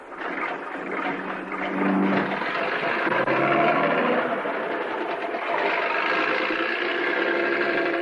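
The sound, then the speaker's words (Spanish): A bus pulls away from a station and drives off along the road, its engine giving a steady, rumbling hum throughout. “Miguel se asoma por la ventana y observa cómo Teresa sube al autobús que ha parado frente a la estación. El vehículo se aleja por la carretera mientras el hombre lo mira atentamente.”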